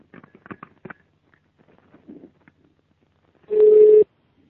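A telephone being dialled: a quick run of short clicks and taps, then one loud, steady, mid-pitched tone lasting about half a second.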